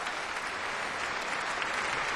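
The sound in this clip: Audience applause at a folk concert at City Hall: a dense, even wash of many hands clapping, steady throughout with no voices standing out.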